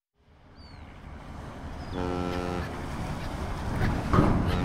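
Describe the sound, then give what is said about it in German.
Harbour sound at the port of Hamburg, where ships come and go: a low, steady rumble rises from near silence, a short tonal horn-like blast cuts in partway through, and the noise swells louder near the end. “Der Hafen. 12.000 Schiffe pro Jahr. Das ist der Hamburger Hafen.”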